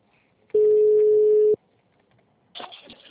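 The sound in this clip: A telephone ringback tone sounds while a call is placed: a single steady, mid-pitched beep lasting about one second, loud and clean against near silence, followed by a short burst of other noise.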